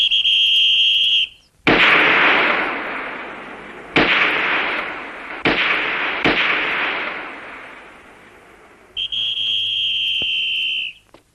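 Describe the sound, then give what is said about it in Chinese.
Four loud gunshots from carbines and a pistol at target practice, each a sharp crack trailing into a long decaying rumble, with a steady high whistling tone before the first shot and after the last. “好，我和老总用卡宾枪，主席打手枪。”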